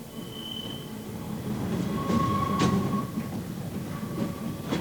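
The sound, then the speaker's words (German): Rolling rumble of a yellow tram running through a foggy, wet Hamburg street on a grey November afternoon. The steady rumble carries thin metallic wheel-squeal tones that come and go, with no voices. “Die Straßenbahn fährt durch den nebelnassen Hamburger Nachmittag. Der ist grau und die Bahn ist gelb und verloren darin.”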